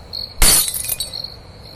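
A stemmed glass cup suddenly shatters during a quiet spirit-board-style game: one sharp, loud crash of breaking glass, then bright tinkling fragments that fade within about half a second. A faint, steady high-pitched tone continues underneath.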